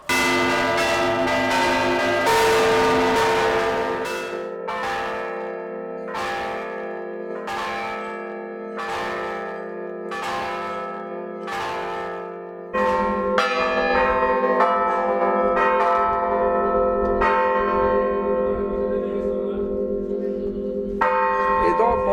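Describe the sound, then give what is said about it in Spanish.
A church bell is struck with sharp, strong strokes. Many loud, evenly spaced clangs follow one another, each with a long ringing tone, and a dense sustained ringing carries on to the end. “Campane hanno due cose basiche. Il golpe secco è questo, forte.”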